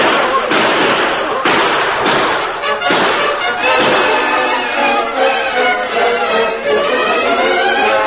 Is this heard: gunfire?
yes

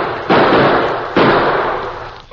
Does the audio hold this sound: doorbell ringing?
no

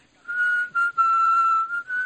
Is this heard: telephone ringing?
no

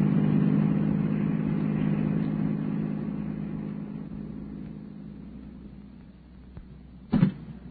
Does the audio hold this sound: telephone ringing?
no

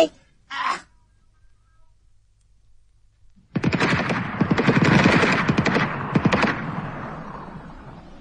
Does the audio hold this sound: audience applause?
no

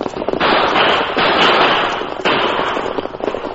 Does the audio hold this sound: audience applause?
no

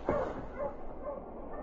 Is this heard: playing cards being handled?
no

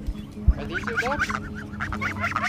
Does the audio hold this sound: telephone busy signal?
no

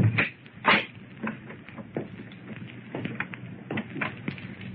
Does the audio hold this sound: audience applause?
no

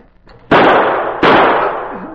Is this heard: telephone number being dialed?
no

